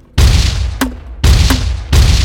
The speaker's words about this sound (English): The team first riddled the lifeboat with small arms fire, then pummeled it with the grenade launchers.